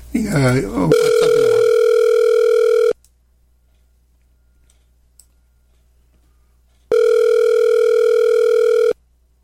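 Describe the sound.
A WhatsApp call rings out on a phone with a steady electronic ringback tone, two long level beeps separated by several seconds of silence, the first following a brief bit of speech.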